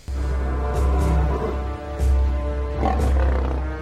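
Lions roar and growl in deep, loud, layered rumbles that run without pause, with a few stronger surges standing out, and no talk.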